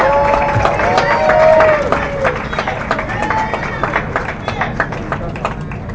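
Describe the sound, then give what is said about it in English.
A crowd gives a round of applause to honor a man at a gathering. Many claps pick up and grow denser toward the end, with voices and cheering mixed in. “Mr. Sam, Sammy Armstrong. Let's give him a round of applause.”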